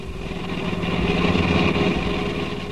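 A car engine drones steadily while the car drives at night. The hum is even and moderately loud, rising slightly and easing back, with no talk over it.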